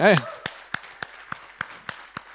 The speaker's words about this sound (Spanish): Vamos a darles un aplauso a ellos. Ahí está.